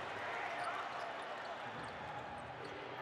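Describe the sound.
A basketball is dribbled on the court during a professional game, with repeated bounces set against a steady, dense background din that runs evenly through the whole stretch.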